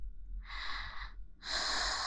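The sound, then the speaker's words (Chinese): Two deep sniffing breaths drawn in through the nose, each a steady rush of airy hiss. The second breath is louder and runs longer than the first. “所以你现在要做的就是好好的闻，深呼吸的闻”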